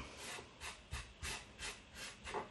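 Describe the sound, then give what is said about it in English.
Jamaica peppers are ground with a pestle and mortar for a pound cake, heard as several faint, rhythmic gritty rubbing strokes in a slow, even pattern. “the next are the Jamaica peppers, which I've just got to use pestle and mortar with to grind them down”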